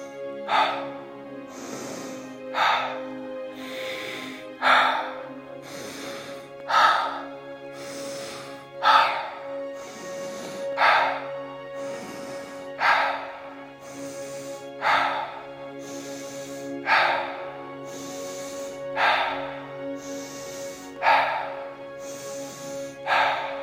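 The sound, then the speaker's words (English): Rhythmic breathing during a guided anxiety-release exercise: many repeated cycles of inhaling through the nose and exhaling with a sigh, evenly spaced about two seconds apart over a steady droning tone. “Inhale, nose. Exhale, sigh.”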